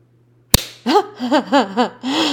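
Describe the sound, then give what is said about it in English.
A single sharp slap on skin cracks out, followed by several breathy vocal moans that rise and fall in pitch. “Oh God, fuck, smack me again.”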